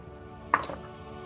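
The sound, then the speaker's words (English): Three dice are rolled onto a table during a tabletop role-playing game: a short clatter of a few quick knocks over a steady low hum. “Okay, so I actually get to roll 3 dice. Okay, here we go.”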